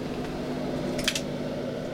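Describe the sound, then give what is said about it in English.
A bookbinding machine at a publisher hums as it heats up. The low, steady mechanical drone runs throughout, broken by a brief scratchy burst near the middle. “And then it comes over to this machine, which is the binding machine.”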